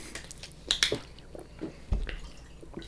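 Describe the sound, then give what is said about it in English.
Wet squishing and swishing come from a mouth being rinsed with liquid after drinking sour beer, heard as a few faint, irregular bursts separated by quieter gaps. “Let me rinse my hocico because it is very sour right now.”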